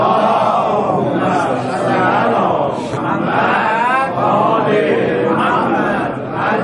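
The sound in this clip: An audience recites salawat together at a religious talk: a loud, steady mass of many voices chanting in unison, swelling and easing in phrases.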